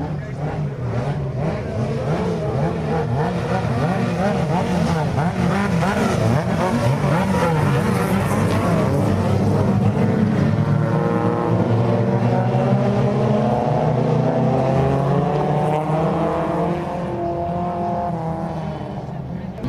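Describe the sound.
Racing engines roar without a break as vehicles overtake one another during a nine-lap heat on a track. Several engine tones overlap and shift, and a voice talks over the noise.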